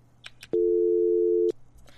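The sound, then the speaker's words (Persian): A phone line gives a single steady electronic tone after a caller's connection is cut off. The tone is loud and even, lasts about one second and is framed by faint clicks. “تماس از اینام قطع شد فکر میکنم اینا را نتونستیم با صداشون داشته باشیم”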